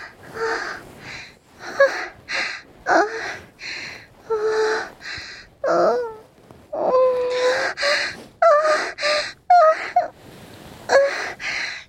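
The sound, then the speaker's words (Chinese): Panting breaths come in many rhythmic bursts, each a breathy gasp carrying a voiced, moan-like tone, fairly loud with brief pauses between them. “连你喘息的声音也跟着大了起来”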